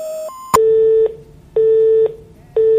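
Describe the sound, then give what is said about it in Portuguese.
A telephone busy tone after a dropped call: three steady, evenly spaced beeps of the same pitch, each about half a second long with equal gaps. A sharp click and a brief higher tone come first. “Ele desligou, vamos tentar de novo. Deve ter caído a ligação, aconteceu algum problema, vamos tentar de novo.”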